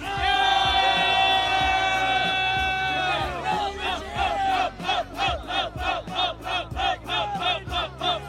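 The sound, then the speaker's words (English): An audience cheers and shouts in reaction to a wrestling promo. A sustained loud yell gives way to a rhythmic crowd chant of many repeated, punchy bursts. “I'm going to say an up, I'm going to say a down, and you make the most amount of noise depending on what you thought.”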